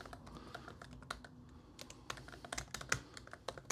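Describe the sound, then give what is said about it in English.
Typing on a computer keyboard: a steady run of many quick, irregular keystroke clicks, some sharper and louder than others, with no voices over them. “gotta type it up”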